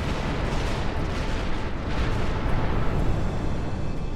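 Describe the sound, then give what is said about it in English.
A deep, roaring blast rumble stands in for an exploding star. It holds loud and dense for the whole stretch, with no voices over it. “to the apocalyptic blast of an exploding star.”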